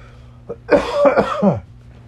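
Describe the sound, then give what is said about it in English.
A person coughing: a short, soft cough followed by a loud, rough burst of several harsh coughs in quick succession, heard alone with no talk. “don't worry, I don't have corona. I'm just coughing.”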